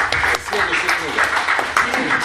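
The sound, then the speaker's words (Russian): An audience applauds, producing a steady wash of clapping with voices mixed in from the crowd. “Давайте мы ему за это похлопаем.”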